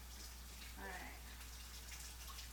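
Running water rinsing freshly peeled potatoes, a faint, steady hiss of flowing water over a low hum.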